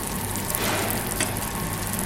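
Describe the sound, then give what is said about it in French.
Steady, crackling sizzle of nuggets of foie gras pan-frying as they brown, a dense, even hiss that holds at a constant level throughout with no talk. “nous sommes en train de faire poêler des pépites de foie gras qui viennent de la maison Mito aussi.”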